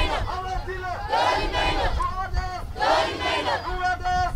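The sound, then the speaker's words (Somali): A crowd of protesters shouting together, demanding their rights after people were killed by federal government forces; many raised voices rise in repeated, rhythmic bursts of chant-like yelling, each lasting under a second, over a constant murmur. “dadka halkaan isugu yimid oo qaylinaya waa dadkii dadkoori la laayay 10 bishaan aan ku jirno 18 maalmood ay saan u qeyliyo waayaan xaqooriya maqan”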